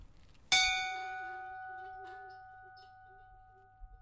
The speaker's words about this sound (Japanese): 幸せの金というものがあるんでちょっと鳴らしてみましょうかね